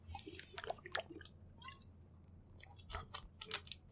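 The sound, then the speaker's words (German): Someone takes a sip of malt beer, producing a quiet string of soft wet slurping and swallowing clicks in uneven bursts, with no voices. “Vorher trinke ich noch einen Schluck Timos Malz”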